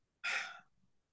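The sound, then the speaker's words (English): A single big, deep breath drawn in sharply, a short airy inhale that fades quickly into quiet. “Then just take a big deep breath.”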